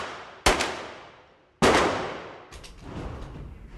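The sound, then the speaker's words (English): Gunfire at a shooting range and gun shop in Virginia: two loud, sharp shots, each with a long ringing decay, followed by a stretch of softer, rougher rumbling noise. “it begins at this shooting range and gun shop, the Blue Ridge Arsenal in Virginia”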